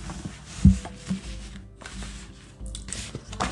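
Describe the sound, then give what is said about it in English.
Tarot cards are handled and arranged: faint, papery rubbing and rustling that comes in a few soft bursts, with one brief tap, at low volume and no talk. “Let me get my cards situated here.”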